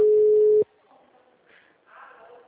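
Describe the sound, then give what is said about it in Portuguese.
Ringback tone on an outgoing telephone call: one steady mid-pitched beep lasting just over half a second, then cut off, followed by faint, low background noise. “Tô ligando, tá? Ó, tá tocando.”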